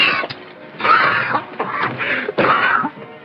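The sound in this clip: A man coughs and chokes in several harsh, raspy bursts with short pauses between them, each fit rough and fairly loud.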